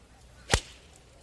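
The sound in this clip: A single crisp, sharp crack as a golf iron, from a set of McGregor irons, strikes the ball on a swing, a brief, bright impact standing alone against quiet background.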